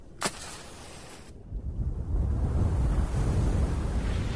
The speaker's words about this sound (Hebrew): רק סיימתי את דבריי, רוח חזקה באה וחיבתה לי את הנר.